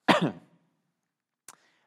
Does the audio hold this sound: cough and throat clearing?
yes